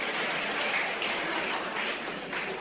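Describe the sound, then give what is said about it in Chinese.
A stadium crowd at a table tennis match stands and cheers a Chinese player's final victory, producing a dense, even roar that stays fairly faint and unbroken throughout. “这是全场观众再次起立为我们中国队员取得最后的胜利而欢呼”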